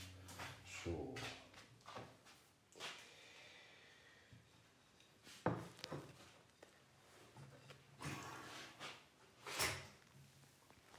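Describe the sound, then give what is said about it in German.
An oven door being closed gives a few faint, dull clunks and knocks, spread out and quiet, with no talk over them. “Wir schließen den Ofen.”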